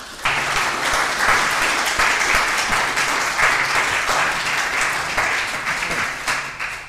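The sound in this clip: Audience applause welcomes guests at a talk about adapting a novel into a stage musical. The full, even roar of clapping starts abruptly and holds steady for around six seconds before easing slightly at the end.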